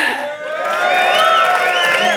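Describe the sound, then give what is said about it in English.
Audience cheering and whooping as a vote for a side in a live debate at Money20/20 Europe, a loud sustained roar of many voices that holds steady for the whole stretch. “Vote by cheering which side was most convincing for 1 point.”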